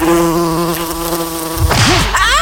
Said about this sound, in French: Les mouches vertes. Les mouches à merde.